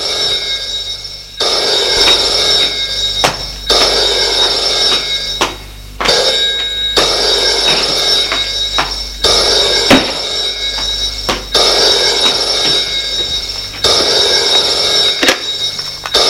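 A telephone rings in repeated loud bursts of a bright, trilling bell. Short pauses separate the bursts in a steady, regular pattern.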